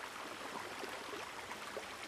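Water in a Costa Rica stream rushes and gurgles in a steady, even wash of noise, faint and constant throughout, with no voices.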